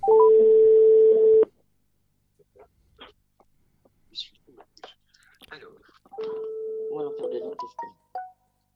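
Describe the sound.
A telephone call is dialed: a steady electronic tone, then faint scattered clicks and soft handling sounds, then a second steady tone ending in a few short beeps.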